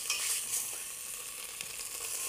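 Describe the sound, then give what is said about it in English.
Pork chops browning in oil in a pan give a continuous, fairly soft sizzle, a dense bright hiss of frying with small crackles that holds even throughout, with no talk. “And we're going straight in with the pork chops. I'm going to brown it off really well, evenly on both sides.”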